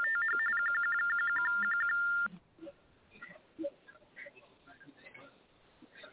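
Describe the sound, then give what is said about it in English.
A phone rings with a rapid string of high electronic beeps lasting about two seconds, then cuts off. Only faint background noise remains afterward. “Oh my God, what is that? His phone.”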